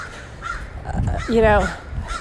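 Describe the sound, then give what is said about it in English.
A crow caws once, a loud, harsh, strongly harmonic call that stands out over faint, scattered background sounds. “My crow friend is very excited about our conversation.”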